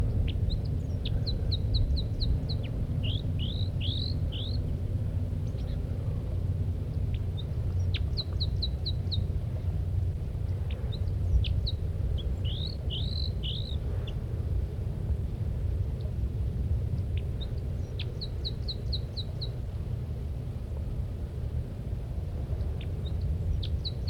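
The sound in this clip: A female bird calls at her nest in short bursts of high, quick chirps. The bursts repeat in several clusters over a low, steady rumble.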